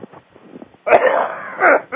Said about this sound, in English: Quit coughing in everybody's ear. I apologize.